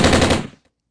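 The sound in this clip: Rapid rifle gunfire: a loud, dense automatic burst lasting about half a second, then it cuts off abruptly as the rifle runs out of bullets.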